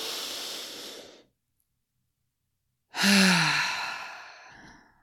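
A big, deep breath in, then a pause of silence, then a long, heavy exhale like a sigh. The out-breath is louder and longer than the in-breath and fades away slowly.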